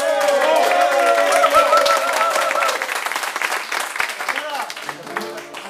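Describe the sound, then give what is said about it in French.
An audience applauds and cheers a songwriter at a casual aperitif gig. A held, melodic vocal line fades out as dense, crowded clapping takes over and carries on to the end. “Une ovation pour Daniel Franklich.”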